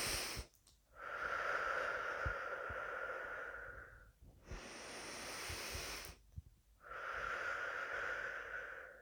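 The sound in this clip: Slow, deep breaths in and out during a guided breathing exercise, each long and drawn out as a hushed, airy rush, with brief silent pauses between them.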